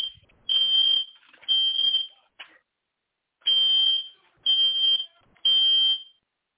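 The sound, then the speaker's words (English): A smoke-type fire alarm goes off with five long, piercing high beeps in two groups and a short chirp between them. Silence separates the beeps. “Live radio, and I have a fire alarm on April Fool's going off.”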